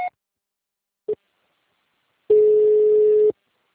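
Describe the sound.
A voicemail signal on a phone line: two short beeps spaced about a second apart, then a clean, sustained tone lasting about a second, heard alone against silence.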